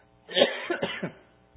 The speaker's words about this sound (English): apparently I'm going to cough for you guys all listen.